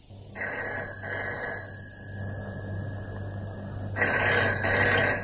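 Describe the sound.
Telephone ringing in high, shrill bursts: a double ring, a pause, then a second double ring that is cut short, with no talk.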